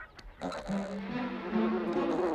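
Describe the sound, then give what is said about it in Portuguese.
A bee buzzes in a scene from a dubbed animated film: a continuous harmonic drone that wavers and steps up in pitch, holding steady to the end. “Ah, uma abelha! Abaixa!”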